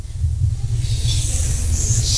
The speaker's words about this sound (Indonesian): tiru suara ular